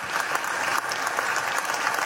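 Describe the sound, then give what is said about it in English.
Applause fills the Senate chamber: dense, steady clapping from many hands that holds at an even loudness from start to finish. “And the Senate chamber burst into applause.”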